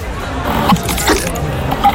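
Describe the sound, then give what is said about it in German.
A ketchup dispenser, the mystery sound in a wine-festival guessing game, gives a few short mechanical squeaks and clicks over a steady crowd babble that fills the whole recording. “Und es ist ein Ketchup-Spender.”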